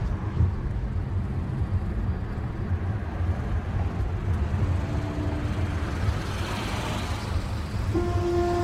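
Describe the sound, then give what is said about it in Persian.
A car driving along gives a steady, dense, low rumble of engine and road noise that holds an even level throughout, with faint tonal hums appearing toward the end. “مالک پشت فرمون ماشینش در حال حرکته.”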